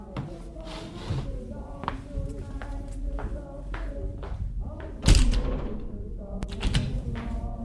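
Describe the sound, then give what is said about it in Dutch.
An apartment balcony door is pulled shut with one heavy thud partway through, after a series of light knocks and shuffles, and the sound then fades away. “Wacht even, ik doe even de balkondeur dicht.”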